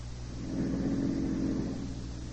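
A car engine rumbles as the car is driven keeping to the left of the road, a low steady drone that swells slightly mid-way and then eases.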